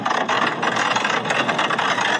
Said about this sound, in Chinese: 请问驾驶员，这个油门踩的真的是非常的轻柔。